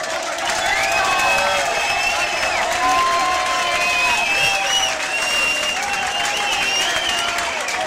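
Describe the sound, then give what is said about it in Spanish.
Audience applause at a live hardcore punk concert: steady, dense clapping from a crowd, with cheering and shrill whistles weaving through it at an even, loud level throughout. “Yo quiero pedir un aplauso”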